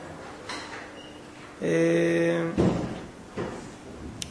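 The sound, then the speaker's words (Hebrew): A door being closed: a drawn-out squealing tone, then a solid thud and a second softer bump. “או שתיכנסו, או שתיצאו, כי זה לא מפריע. אתה בפנים או בחוץ? אז תסגור את הדלת. תודה.”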